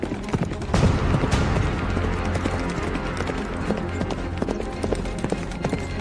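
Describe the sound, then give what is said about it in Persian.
Horse hooves clip-clop as riders set off, with irregular hoof beats over a dense, rumbling wash of noise. “سوار بر اسب شد و آنها را به ادامه راه فرمان داد”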